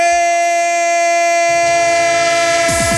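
A train sound effect with a horn: a loud, sustained, steady horn chord holds throughout, while a low rolling rumble joins midway and grows busier toward the end.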